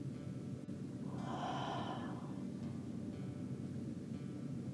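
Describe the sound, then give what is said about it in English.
A full breath released through the mouth comes as one soft, airy rush about a second long. It is faint over a low, rumbling background. “Full breath in. Open your mouth and let go of your day.”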